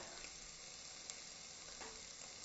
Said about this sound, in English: And I'm putting the whole thigh in there. Skin side down. Actually, I'll drizzle a teeny bit of olive oil in there